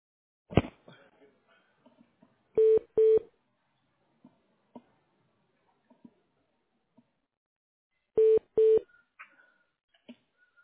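Telephone keypad tones dial an extension from a tax office's phone menu, as two pairs of short, steady beeps separated by a pause, with faint clicks around them.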